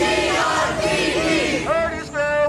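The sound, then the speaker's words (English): A street protest crowd against the Grand Rapids Police Department shouts after the release of videos of a police killing. Several strong, raised voices cry out together in short, wavering bursts over a rough murmur. “That's the sound of protests against the Grand Rapids Police Department last night”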